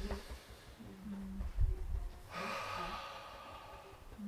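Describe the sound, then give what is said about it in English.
A deep breath in during a breathing exercise: a soft, airy, steady inhalation that swells and holds for a couple of seconds, with no talk over it. “So as you're taking the breath in, just...”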